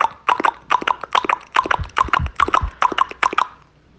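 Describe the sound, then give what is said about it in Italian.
A horse trotting, its hooves striking in crisp, paired clops with an even, brisk double-beat rhythm. The clops are loud and stand alone, then stop near the end. “Furio Cavallo trotta allegramente verso casa.”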